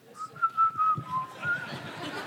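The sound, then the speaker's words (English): A person whistles to calm their nerves, giving a clear mid-pitched tune of a few held notes that waver slightly before trailing off into softer, breathier tones. “What did you do when you're kind of scared walking around? Whistle.”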